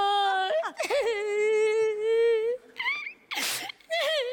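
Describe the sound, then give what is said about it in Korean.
A person whimpers and cries in a wavering, high, drawn-out wail that breaks into sobbing gasps, with a brief break before a final rising moan. “너 왜 울고 있어?”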